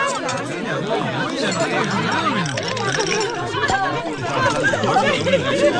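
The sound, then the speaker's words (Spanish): People chat over an ordinary dinner, their overlapping voices forming a continuous babble, with occasional light clinks mixed in. “Seguramente estos te parecieron sonidos de una cena cualquiera”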